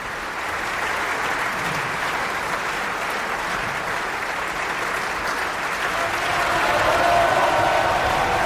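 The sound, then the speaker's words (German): Opera audience applauding soprano Camilla Nylund after a Wagner performance: sustained, dense clapping from a large crowd that holds steady and swells slightly louder near the end. “Und sie empfängt jetzt auch den Applaus des Publikums.”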